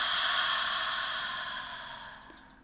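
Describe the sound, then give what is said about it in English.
A deep breath is released in a long, slow, airy exhale, a soft steady hiss that starts fairly loud and gradually fades over a few seconds, with no talking. “So let's take a deep breath in and release.”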